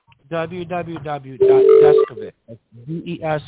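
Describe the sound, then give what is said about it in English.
A short, steady electronic chime sounds during a call, a single sustained mid-pitched tone lasting about half a second while people keep talking over it. “I think there was a chime.”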